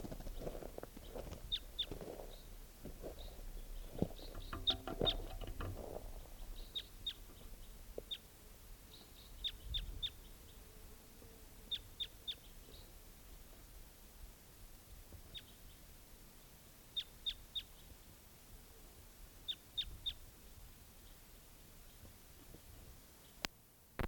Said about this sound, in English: Here's that same bird.